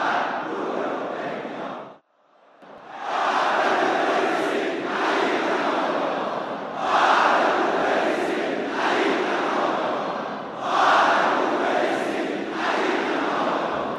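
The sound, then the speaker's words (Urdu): A crowd chants a slogan in unison at a gathering renewing their pledge to a leader. A brief pause near the start is followed by several loud, surging chanted phrases. “یہ کچھ مناظر رہبر کے ساتھ تجدید عہد کے ہیں کہ آئیے ہم شروع سے اس نعرے کو ملاحظہ کرتے ہیں۔”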